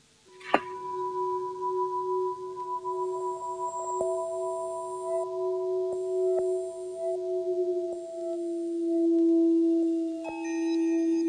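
Parliament bell rung before a vote: a sharp click, then a long, steady electronic tone holding for about ten seconds with a few faint ticks, dropping slightly lower near the end.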